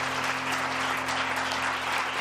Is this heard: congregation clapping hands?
yes